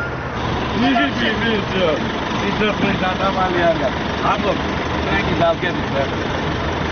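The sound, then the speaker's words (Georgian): A city bus at a stop, its engine a steady low rumble beneath the dense overlapping voices of many children as they board. “15 წუთიანი ლოდინის შემდეგ ავტობუსი მოდის და ბავშვებიც ერთმანეთის მიყოლებით ადიან ტრანსპორტში.”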